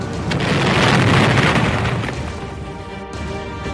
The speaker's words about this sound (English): Oh my God, they just blew up the whole diner.